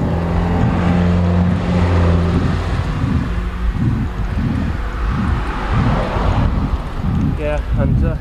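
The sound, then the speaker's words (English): Road traffic passing as a continuous, loud low rumble with wind buffeting the microphone; voices talk over the noise toward the end. “Oh, we're experiencing a lot of traffic here. Yeah, much more than I expected.”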